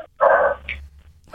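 A dog barks a few times in short bursts, the first one loud and drawn out, the later ones brief and sharper.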